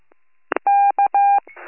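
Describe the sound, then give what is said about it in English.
A telephone number being dialed by a patrolman: a couple of short clicks, then three clear touch-tone beeps, the first and last long and the middle one short, followed by a faint rustling noise. “I call Patrolman Castner, no answer, left a voicemail.”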